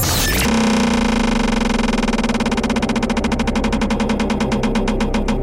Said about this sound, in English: Right now, though, it's time to spin that wheel.